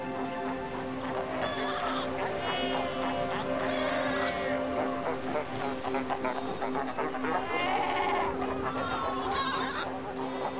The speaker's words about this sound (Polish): W spokojniejszych miejscach gnieżdżą się tysiące uchatek karłowatych.